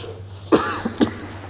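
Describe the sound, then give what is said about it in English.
A person coughing up blood, a few short, harsh coughs in quick succession over a low steady hum. “You're coughing blood.”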